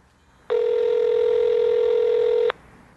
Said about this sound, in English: Let's call them and see how they answer the phone.